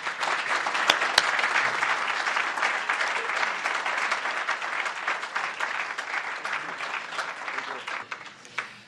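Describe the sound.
An audience at a Maine MPBN event applauds to welcome a speaker, a dense, steady roar of clapping that holds for several seconds and thins slightly toward the end.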